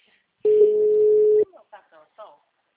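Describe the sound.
A telephone line rings while a call is placed: one steady, mid-pitched ringback tone lasting about a second, followed by brief bits of speech.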